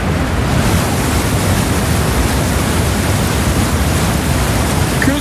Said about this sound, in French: Que d'eau, comme dirait l'autre. Voilà. Ah, il y a beaucoup d'eau.